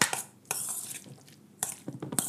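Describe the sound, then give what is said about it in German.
A spoon stirs a mayonnaise mixture in a bowl, making soft, quiet scraping and squelching, with a few louder strokes standing out from the faint, steady mixing. “Wir verrühren das jetzt einfach schön. Schön verrühren.”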